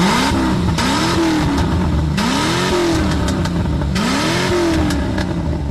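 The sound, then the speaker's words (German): Engine of a 1987 Chevrolet Corvette C4 revving, with several throttle blips that rise and fall in pitch over a steady, rumbling idle, loud and with no voices. “Hey, ein Chevrolet Corvette C4 mit dem Jahrgang 87.”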